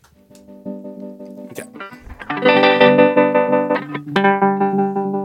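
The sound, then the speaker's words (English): A prototype synthesizer module plays a polyrhythm on a ramp-down wave shape. Buzzy, harmonic-rich tones pulse with sharp, repeated attacks, starting softer, then swelling into a loud, rapid pattern, with a brighter note entering near the end. “Okay, so I'm going to turn the polyrhythm. Okay, so this is a ramp down wave shape. So you can really hear the attack on these.”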